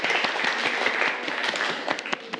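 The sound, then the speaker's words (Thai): Classroom students clap for a group of classmates, producing a burst of scattered, uneven handclaps that is fairly full at first, then thins into sparser individual claps toward the end. “ปรบมือให้เพื่อนกลุ่ม3ด้วยครับ”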